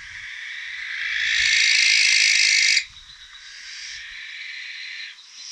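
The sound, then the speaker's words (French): A barn owl's call played back from a recording: a long, harsh, rasping screech that swells for about three seconds, then breaks off into a quieter, thinner sustained tone. “Alors là, c'est la chouette effraie.”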